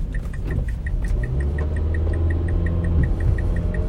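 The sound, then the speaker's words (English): A car engine runs hard while being driven fast, giving off a steady low rumble. A quick, even high-pitched tick repeats throughout. “I'm driving real fast because I am late once again”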